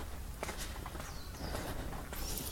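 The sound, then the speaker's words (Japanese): Soft footsteps of someone strolling leisurely on the way to a park, a few faint, unhurried steps against a quiet hiss of outdoor background noise. “今のんびりとことことお散歩しながらですねいつもの公園へと向かっております”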